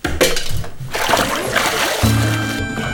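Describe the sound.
Water splashes and churns in a bath as a child is held under and struggles, with a steady run of sloshing, thrashing splashes throughout.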